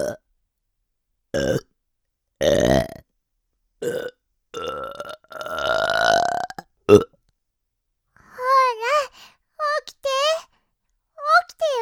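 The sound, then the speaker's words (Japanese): Loud burps close to the ear: several croaking belches of varying length, one long and drawn out, separated by silences. Short voiced vocal sounds follow near the end. “耳元でおっきなゲップこきまくっちゃおうっと”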